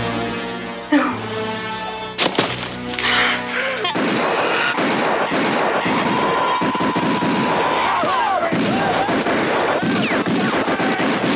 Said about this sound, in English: Stop firing!